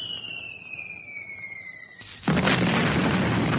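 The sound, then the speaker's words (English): An artillery shell whistles in with a steadily falling tone, then explodes on a road in a sudden loud blast that leaves a dense, sustained roar. “Suddenly, a shell exploded in the road about 100 meters ahead of her, and the blast threw her from the bicycle.”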